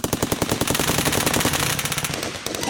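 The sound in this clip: Machine-gun fire rips out in rapid, unbroken bursts of loud, sharp shots, far too many to count, continuing throughout with no voices.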